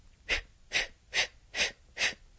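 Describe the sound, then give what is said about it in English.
Breath pushed out in five short, evenly spaced puffs during a deep breathing exercise, each a soft, breathy hiss of similar length in a steady rhythm, with no talking. “you put your hands together in the front of your body and take a long, deep breath and let it out like so,”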